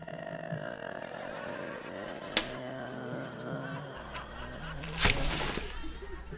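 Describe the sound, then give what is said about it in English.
Objects bounce off a window: one sharp, crisp tap rings out, and a few seconds later a broader, rougher clatter follows, both faint over a low, steady background. “What's that noise? Is somebody bouncing stuff off the window?”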